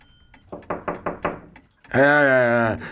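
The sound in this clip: Knocking at a door: four quick, firm raps in an even rhythm, then a short pause before a voice starts speaking.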